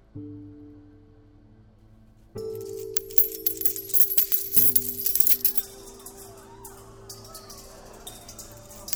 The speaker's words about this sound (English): Rich men were unloading their offering in the temple treasury. They smiled and waved as their thousands of coins rushed out of their large sacks